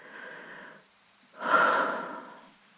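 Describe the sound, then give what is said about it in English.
Two breathy exhalations let out by a person, the first soft and steady, the second louder and longer, fading out at the end, with no talking. “It made me want to let out breaths like this.”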